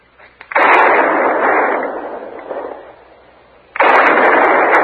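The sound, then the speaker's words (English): Gunshots are fired by a man lying among a small herd of buffalo, apparently as a signal for help. Two loud, sharp blasts ring out, each followed by a long, rumbling tail, with no voices during the shots. “Hey, what in the world is he shooting at now?”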